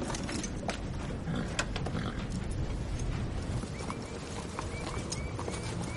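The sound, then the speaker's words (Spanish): Horses walk with steady clip-clopping hooves, each horse carrying two riders. The hoofbeats sound as many overlapping knocks over a constant, dense background noise, with no talk. “Después Thor va con Beta en un caballo y Christian con Hannah en otro.”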